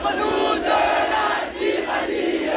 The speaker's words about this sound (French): Hier matin, par exemple, Bali Bagayoko, le maire de Saint-Denis, devant un lycée bloqué. L'insoumis fait même chanter la Marseillaise.